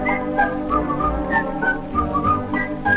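A person whistles a bright, lilting Swiss-style song, clear melodic notes stepping up and down over a low, sustained instrumental backing.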